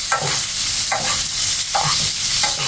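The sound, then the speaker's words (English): A steak sizzles loudly in a pan as it is basted with garlic and rosemary. A steady frying hiss swells into four evenly spaced bursts as the fat is spooned over. “So now I'm going to get this over here. I'm just going to baste it up.”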